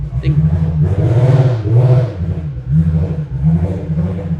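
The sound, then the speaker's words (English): A car engine revving as the car drives out, a low droning hum that swells and eases in repeated surges under people talking. “Oh, he's moving it? Looks like, yeah, they're driving out.”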